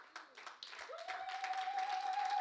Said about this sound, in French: Je pense qu'on peut acclamer cette église.